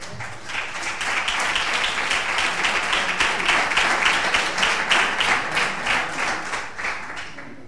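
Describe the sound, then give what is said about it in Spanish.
Audience applause at a neighbourhood association gathering: steady, dense clapping from many hands, moderately loud and continuous for several seconds without a break. “Aplauso.”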